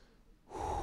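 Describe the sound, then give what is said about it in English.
One deep breath drawn in, rising from near silence into a loud, airy rush of inhalation that lasts to the end. “I'm going to take a breath right now. I got a little heated when I just started to think about it.”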